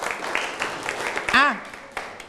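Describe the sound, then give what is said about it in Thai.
Classroom students clap for a classmate: a few scattered, uneven claps spread across the stretch, and a voice speaks briefly in the middle. “นั่งลงครับปรบมือให้กับเพื่อนหน่อยครับ”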